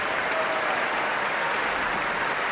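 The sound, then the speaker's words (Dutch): Applause for the timpanist after an orchestral performance of a symphonic suite: dense, steady clapping from a crowd, even in loudness throughout, with no talk over it. “En dit applaus is voor paukenist”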